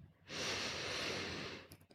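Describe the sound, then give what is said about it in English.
One long, deep breath drawn in during a guided relaxation, an airy, hissing rush that swells, holds steadily for over a second, then fades, with no talking. “Deep breath in.”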